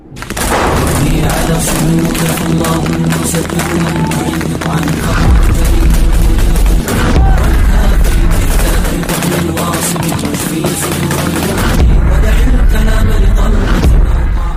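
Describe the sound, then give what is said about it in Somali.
Heavy gunfire from an al-Shabaab morning attack on federal government troops at their base: many rapid, loud shots and booming blasts packed into dense, sustained bursts that barely let up. “weerarka ayaa bilaabanaya xilli aroornimo ah waxaana filimku soo bandhigaya ciidamada xarakada Shabaab ee Mujaahidiin oo mar qura rasaasta hubinaya askarta dawladda federaalka”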